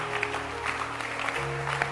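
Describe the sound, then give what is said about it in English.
A church audience claps along as sustained keyboard or organ tones play, the applause a steady wash partly masked by the music for the whole stretch. “keep clapping”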